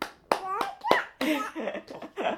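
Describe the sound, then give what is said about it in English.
A small child claps their hands a few times in quick succession while babbling in a high, sing-song voice between and after the claps. “You're going to clap. Should we clap?”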